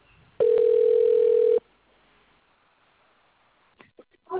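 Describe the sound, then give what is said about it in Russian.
A telephone ringing tone sounds while a call is being placed: one steady, even-pitched tone lasting just over a second, then quiet with a few faint, brief sounds near the end. “Продолжаем дозваниваться. Оставайтесь на линии.”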